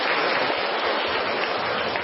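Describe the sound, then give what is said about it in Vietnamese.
A church audience applauding: dense, continuous clapping that keeps an even, steady loudness from start to finish, with no individual claps standing out and no voices. “Chúng ta hân hoan chúc mừng những anh chị em ấy bằng một tràng pháo tay thật lớn, thưa anh chị em.”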